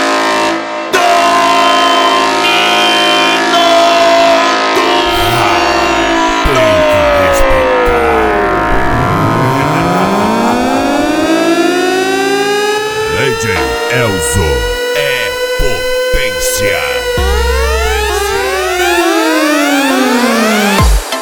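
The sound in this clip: Siren-like horn effect from a car sound-system wall, very loud and continuous, with layered tones that sweep down and then glide back up in pitch.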